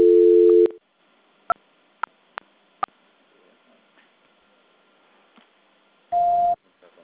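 Telephone tones during a call transfer: a loud steady low tone at the start, then four sharp clicks over otherwise quiet line noise, and a short higher beep near the end.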